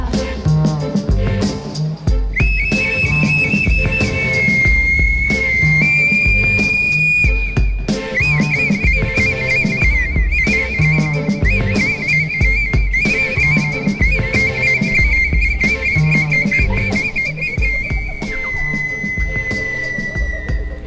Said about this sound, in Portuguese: Ouvi esse assobiar que anuncia minha chegada.